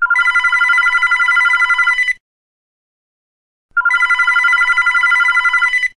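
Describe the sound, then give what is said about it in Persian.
A telephone rings in two long bursts separated by a pause of about a second and a half, a bright, steady trilling tone with no voices. “نیم ساعت بعد زنگ زد.”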